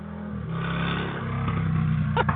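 A motorcycle rides past outside an open window on a cool day, its engine a steady mid-pitched roar with a layered harmonic hum that holds loud and even throughout, with no talk.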